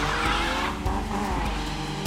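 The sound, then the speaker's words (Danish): A diesel Volkswagen Golf 2 on yellow plates, with no rear seat, drives with a continuous loud engine drone and low, steady harmonic hum throughout. “Det er en Golf. En Golf 2. Gul plade, så er der ingen bagsæde i. Så er det en diesel.”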